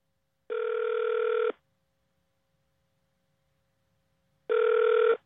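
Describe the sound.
Ringback tone of an outgoing telephone call to the White House: two steady, bright electronic rings, each lasting about a second, separated by a few seconds of silence.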